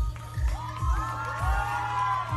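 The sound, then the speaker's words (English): An audience cheering wildly at a drag performance: high whoops and shrieks from many people over music with a thumping, regular bass beat. “At one point, she swings the cape around her body, kicks it up, and the crowd goes wild.”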